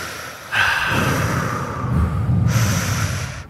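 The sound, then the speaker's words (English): Deep cleansing breaths drawn in and out during a seated relaxation exercise. A loud, airy rush of breath holds steady for about three seconds and shifts in tone partway through, with no voices. “Sit quietly in a comfortable position and take a few cleansing deep breaths in and out.”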